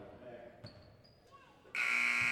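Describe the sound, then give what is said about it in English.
A basketball scoreboard buzzer sounds during a game. The loud, harsh electronic tone starts abruptly and holds to the end, after quieter court noise with bounces and brief high tones. “The scoreboard buzzed the officials to say 1-1, but right now it says 16 fouls.”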